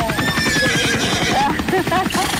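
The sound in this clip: Horse neighing: loud, wavering high-pitched whinnies that rise and fall over rapid rhythmic hoof clopping, lasting a couple of seconds.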